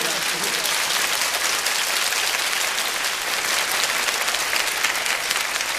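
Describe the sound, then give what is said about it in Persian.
Dense crowd applause at a religious celebration honouring Ali, loud and continuous with no pauses, the many claps blurring into an even wash of sound. “اینجوری دست میزنم خدایی”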